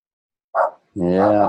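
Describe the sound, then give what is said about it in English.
A dog barks in an agitated, frenzied state: one short, sharp bark, a brief pause, then a longer, drawn-out tonal yowl, loud against silence. “So hang on, I got a dog here that's going a bit rabid.”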